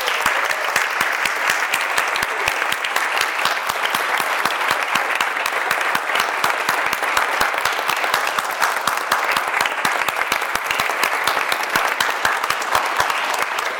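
A church audience applauds the confirmation group with dense, continuous clapping that holds at an even, lively level for about fourteen seconds, with no pause or swell.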